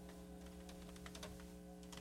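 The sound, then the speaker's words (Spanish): Soft keyboard typing as a question is written down, with a run of faint, irregular key taps over a steady low hum. “Pregunta preciosa, a ver, déjame escribo.”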